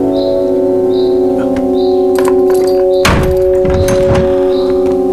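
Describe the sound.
A locked door to the room where a detained man is held is opened: a heavy thunk followed by a short rattling clatter, sounding over a steady, droning tonal background.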